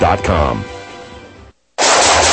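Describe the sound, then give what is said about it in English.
Gunfire: a loud shot with a rumbling tail that fades away, a moment of silence, then another sharp, loud blast that cuts off abruptly. “Whew, nice shooting.”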